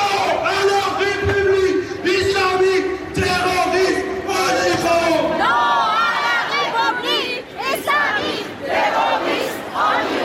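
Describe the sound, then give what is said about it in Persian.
Protesters chant slogans on a march in Paris from Place de la Bastille to the city hall, honoring Mahsa and other protest victims. Loud massed voices shout in rhythm, with many overlapping cries. “هزاران تن در حالی که شعار می دادند و نمادهایی از مهسا و دیگر جان باختگان اعتراضات را در دست یا بر سر داشتند، از میدان باستیل تا شهرداری مرکزی پاریس راه پیمایی کردند.”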